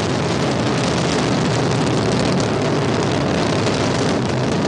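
Solid rocket boosters ignite and lift a launch vehicle off the pad with a dense, loud, continuous roar that holds steady throughout without a break.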